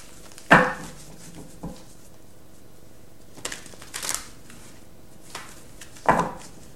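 Tarot cards from the After Tarot deck are shuffled and drawn in several faint, short, papery riffles and snaps separated by quiet pauses.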